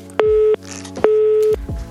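Telephone line tone after a dropped call: two steady electronic beeps, each roughly half a second long and separated by a short gap, over a faint low hum.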